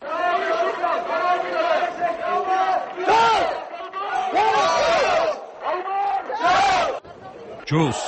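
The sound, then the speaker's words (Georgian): A crowd at a protest rally in Georgia chants loudly in unison, shouting repeated phrases in rhythmic bursts separated by brief breaks. “ეს შეძახილია, რომელსაც მიტინგზე მისული ადამიანი ვერაფრით აარიდებს თავს.”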